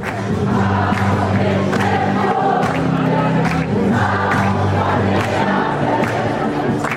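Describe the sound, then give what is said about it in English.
Dense crowd noise fills the streets of the Sankewa Folk Festival in Bamberg, a five-day celebration in winding medieval streets. Steady, loud chatter and calls with scattered sharp clatters continue throughout, over a low, sustained droning hum. “Welcome to the Sankewa Folk Festival here in the town of Bamberg, a five-day-long celebration in its winding medieval streets.”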